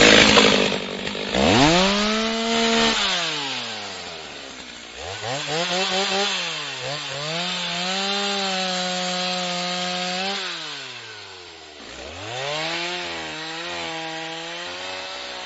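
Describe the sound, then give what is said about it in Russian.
An angle grinder's disc shrieks through metal in a high, harmonic whine. Its pitch sags as the blade bites and recovers as it eases, running in a few long, loud bursts separated by short pauses. “Сразу же завизжал диск пилы по металлу, почему-то в народе названный болгаркой.”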